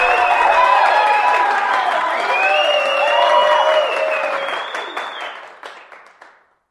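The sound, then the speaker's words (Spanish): Applause, cheering and crowd voices for great stars of the 1930s in a nitrate-town theatre, dense and loud for several seconds before gradually fading to silence. “Aquí parece que aún resuenan los aplausos, las voces, los vítores, aquellas grandes estrellas.”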